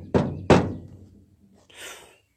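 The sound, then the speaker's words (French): Two sharp, loud knocks on a door, the second quickly following the first. “On toque à la porte.”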